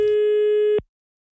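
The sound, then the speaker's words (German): A single steady telephone tone of an outgoing call sounds as one continuous mid-pitched beep lasting under a second, then cuts off into silence. “Ich habe da eben glatt mal angerufen.”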